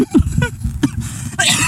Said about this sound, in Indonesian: sampai batuk anjir